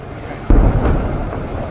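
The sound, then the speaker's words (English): A single blast from a charge set off by rescue workers on a wrecked ship, a sudden low boom that breaks the quiet and then fades into a rumbling decay. “Rescue workers are setting off explosions so they can get better access to search the interior.”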